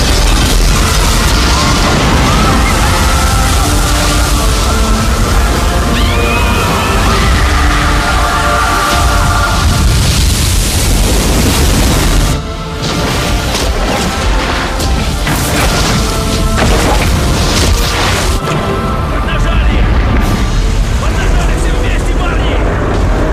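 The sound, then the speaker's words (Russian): A glass dome cracks and tons of water crash down aboard the sinking Titanic: a loud, dense roar of rumbling and crashing with booming impacts that runs through the whole clip, with only a brief dip near the middle. “Стеклянный купол в холле первого класса трескается, и на людей обрушиваются тонны воды.”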